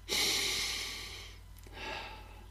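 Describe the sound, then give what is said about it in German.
Deep, calm breathing done slowly and at rest. Two long airy breaths are heard, the first louder and longer than the second, both soft overall. “Erstens, atme dreimal ganz tief in Ruhe durch.”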